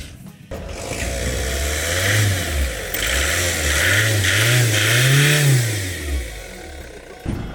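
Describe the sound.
A van engine starts up and is revved several times, its mid-pitched drone swelling and dropping in repeated waves before easing back, loud and steady throughout.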